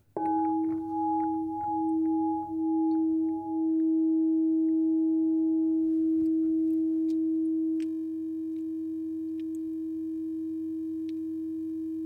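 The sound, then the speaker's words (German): A sustained musical tone on the note E hums as a pure, steady pitch with a faint overtone above it. It wavers gently at first, then settles into an even, unbroken drone lasting many seconds. “Ein E habe ich da. Ich habe jetzt da einen Ton E, der sollte auf den Solarplexus gehen.”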